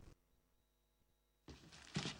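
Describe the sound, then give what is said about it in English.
An apartment door in a TV sitcom is opened: after near silence comes a sudden rise of noise and then a dull, heavy thunk. “Sheldon's opening his apartment door.”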